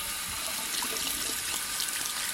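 Water running steadily while shampoo is rinsed off, a continuous, even, bright hiss of flowing water with no break.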